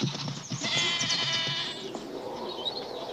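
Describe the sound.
Goats bleat as they flee through the dirt, several overlapping, strained calls that stay loud and dense for the first two seconds, then thin out and fade.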